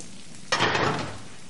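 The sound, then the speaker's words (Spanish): A boiling pot is pulled off a coal-fed kitchen stove with a cloth. A sudden hissing, sizzling rush starts sharply, then slowly fades into a low steady background. “Hay un cazo hirviendo. Coge un paño y retira el cazo del fuego.”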